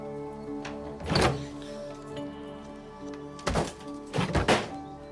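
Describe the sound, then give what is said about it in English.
A front door lock clunks as it is unlocked with keys. One heavy thunk comes first, then a pair of clunks follows a few seconds later, all over a steady low hum. “She hesitates, then unlocks the front door.”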